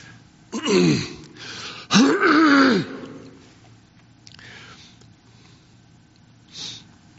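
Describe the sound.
Sniffing and snorting from a preacher whose allergies are acting up mid-sermon: two loud, throaty nasal bursts with a moaning tone, then two much fainter sniffs after a pause.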